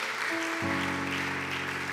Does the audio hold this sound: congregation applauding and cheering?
yes